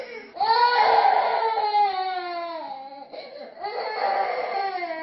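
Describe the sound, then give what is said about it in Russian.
Infant crying in sustained, high-pitched wails: one long bout that gradually weakens, a short break, then a second strong bout. The crying is loud and alone. “все любят детей до того момента, пока они не начинают плакать.”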